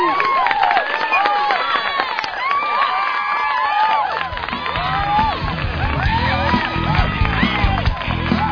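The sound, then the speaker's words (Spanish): Audience applause and cheering after a live band's set, a dense, loud, continuous wash of clapping mixed with shouting voices that holds steady throughout. “Un aplauso.”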